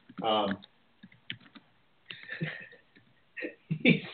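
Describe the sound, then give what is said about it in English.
Computer keyboard typing, scattered quick clicks and short bursts of keystrokes between stretches of people talking. “He's typing, I swear.”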